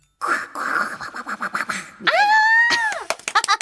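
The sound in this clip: A voice imitates a duck character's quack as a drawn-out, nasal, strongly pitched "kwaa" that swells, holds and drops away, with talking before and after it.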